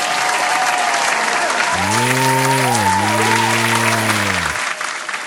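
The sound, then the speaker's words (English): An applause sound effect: steady, even clapping runs throughout, and a sustained tonal sound overlaps it through the middle section. “I finally got my applause soundbite.”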